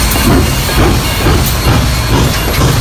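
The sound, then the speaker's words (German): A car-carrying train to Sylt departs with a steady, loud low rumble and rolling rail clatter, plus a faint hiss above, continuous throughout without voices. “Autozug Sylt. 17 Uhr.”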